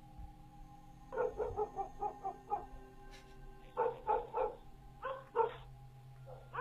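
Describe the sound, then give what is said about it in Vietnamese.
A neighbour's dog barks at night, giving three faint bursts of short, sharp, yappy barks in quick runs separated by brief pauses, over a low steady hum. “Chó nhà hàng xóm chẳng hiểu vì sao, đêm nay cứ sủa nhấm nha nhấm nhẳng suốt cả một đêm.”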